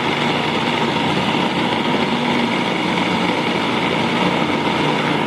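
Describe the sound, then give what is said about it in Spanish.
A food processor blends strawberries with a steady, unbroken motor whir that holds an even loudness throughout, with no voices over it. “Entonces vamos a licuar las fresas, o moler las fresas.”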